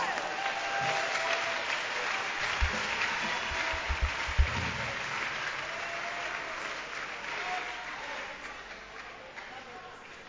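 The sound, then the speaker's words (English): A church audience claps their hands in a steady, continuous patter that stays fairly faint throughout, with voices mixed in. “Are you clapping your hands for Jesus?”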